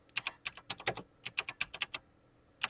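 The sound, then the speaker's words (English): Quick, crisp keystrokes on a computer keyboard: many sharp clicks tapped in an uneven run, a brief break, then a second burst and one final tap. “Let me just, type that.”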